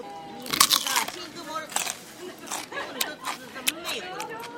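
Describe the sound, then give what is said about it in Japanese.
Crisp crunches of someone biting into a fresh cucumber dipped in spicy miso, several sharp bites that break through vocal sounds and mouth noises. “さっき買った辛味噌で今買ったきゅうり食ってみたらどうなるか、”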